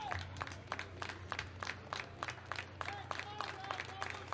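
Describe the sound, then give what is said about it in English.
Baseball crowd of Salem fans clapping in the top of the 10th inning, with many slow, evenly spaced claps in a steady rhythm over a low background hum. “Some long claps from the Salem faithful.”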